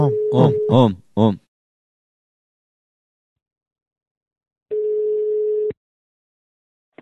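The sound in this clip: A telephone call tone as a number is rung: one steady, mid-pitched beep lasts about a second. It follows a brief vocal sound at the start and a long silence.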